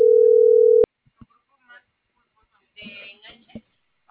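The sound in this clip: Telephone tone heard while placing a call: a single steady, mid-pitched beep lasting under a second, ending with a click. Quiet speech and scattered noises follow.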